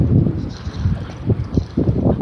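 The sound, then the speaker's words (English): Strong east wind blows hard across an open field where flags flap, heard as a loud, steady low roar with irregular gusting pulses and no voices. “Wind's almost directly out of the east. It's blowing hard. Flags flapping, snapping in the wind.”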